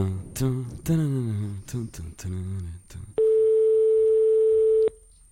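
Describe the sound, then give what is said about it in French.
Ringing tone of a telephone call to a hotel that goes unanswered: one long, steady, loud tone lasting under two seconds, following a few seconds of people talking. “Bon, on va appeler un autre hôtel. Ça répond pas.”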